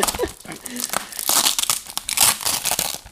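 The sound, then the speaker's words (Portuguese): Paper and tape crinkling and tearing as a tightly wrapped gift with heavy tape is unwrapped, in many crackling bursts of varied loudness while people talk over it. “Ai está muito bem embrulhado e nem sei por onde é que eu ia de começar.”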